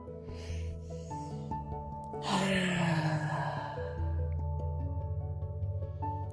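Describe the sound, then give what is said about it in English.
A deep exhale through the mouth during a guided breathwork exercise: a soft, breathy rush of air that swells and fades over about two seconds, set over a steady, sustained musical drone. “One more inhalation through the nose. An exhalation completely through the mouth.”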